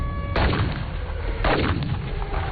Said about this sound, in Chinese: 别跑，再跑就开枪了。